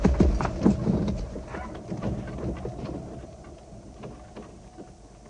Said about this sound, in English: Try a gallop. On to St. Albans.